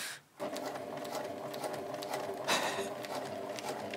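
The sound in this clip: A sewing machine stitching slowly through five layers of fabric gives a steady, continuous mechanical whir with a soft, regular clatter, after a brief dip in sound at the start.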